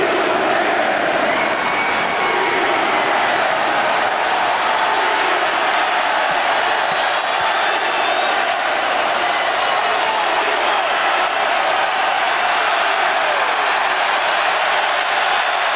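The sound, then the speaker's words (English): Roaring crowd ovation fills a Colorado basketball arena as Deion Sanders, Coach Prime, enters during a timeout. The dense cheering holds loud and steady for the whole stretch, with no break or fade. “during the timeout, they were waiting all night for this, the loudest ovation, not for a KJ Simpson three, but Coach Prime, Deion Sanders, has entered the building.”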